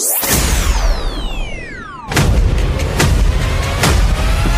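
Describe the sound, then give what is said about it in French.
Fireworks go off at a display for a celebration or event: a long descending whistle streaks down, then loud booms and cracks follow at about one-second intervals. “Et pourquoi pas un feu d'artifice avec Pyrostar.”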